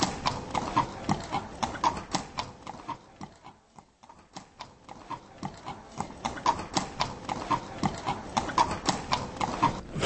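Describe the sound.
A horse walks at a steady pace, its hooves clip-clopping in a continuous, even rhythm with many crisp strikes. The beat briefly softens midway before resuming just as clearly.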